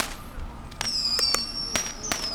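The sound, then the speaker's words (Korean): Fireworks exploding at the seaside: a quick run of sharp cracks and pops over a sustained high whistling tone, with no voices over them. “지금 저 폭죽 터지는 소리 때문에 피크가 팍팍 떠.”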